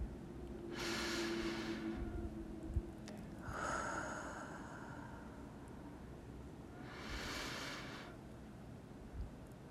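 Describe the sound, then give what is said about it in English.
Slow, deep breathing during a guided prayer exercise: three long, soft, airy breaths separated by quiet pauses, over a low steady background hum, with no talk. “Let's begin with a few deep breaths.”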